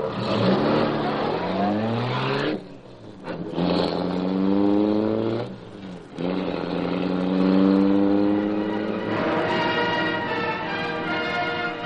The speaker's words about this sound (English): The great car roared into life. Section of the wall in front raised automatically, then closed as the gleaming Black Beauty sped into the night.